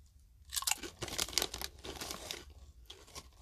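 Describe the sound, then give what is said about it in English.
Street taco flavored wavy Lay's potato chips crunch between the teeth in many crisp, fairly quiet bites, a dense run of brittle cracks with no talking. “I bet this one will taste better. Street taco flavored wavy Lay's.”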